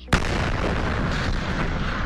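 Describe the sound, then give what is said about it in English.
Air blast from the 2013 Chelyabinsk meteor over Russia, recorded by car dash cams: one sudden loud boom opens into a heavy, sustained roaring rumble that stays loud to the end. “Those driving in Russia with dash cams captured the meteor on video, letting the world hear its blast.”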